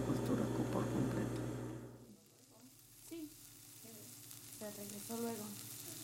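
Food sizzles as it fries during cooking: a dense, hissing crackle for the first two seconds, then a quieter, sparser sizzle that continues faintly to the end.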